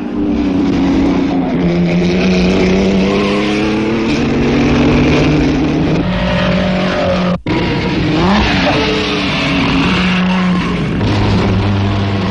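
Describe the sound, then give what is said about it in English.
Racing car engines roar at a motor race that includes an American Duesenberg: a loud, sustained engine drone with overlapping tones that shift in pitch, broken by a brief dropout partway through. “The few remaining cars hold together, and it's an American Duesenberg that comes in first at an average of over 78, driven by Jimmy Murphy.”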